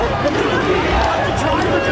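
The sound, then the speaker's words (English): Sports fans chanting together as a UPS delivery truck pulls up: a loud, dense mass of crowd voices that holds steady for about two seconds. “Here's the fans because a UPS truck pulls up. This is what they started chanting. UPS! UPS! UPS! They're just chanting UPS.”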